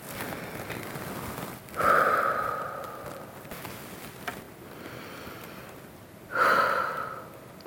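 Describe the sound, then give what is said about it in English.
Deep breathing: two long, audible breaths, each a loud airy rush that swells and then slowly fades, standing out over a faint, steady background hiss. “I need to take a deep breath here, and I invite you to join me for 10 seconds.”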